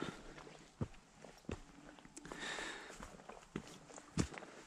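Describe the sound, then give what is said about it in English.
Footsteps of someone walking uphill: faint, irregular crunching steps with a few sharper scuffs over soft outdoor noise. “I am walking uphill at the moment”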